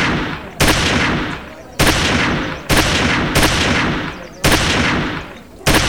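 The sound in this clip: A rapid string of loud, sharp gunshots from a rider at a mounted shooting competition. Each crack has a hard attack and a long, ringing decay, and the shots come at roughly one-second intervals.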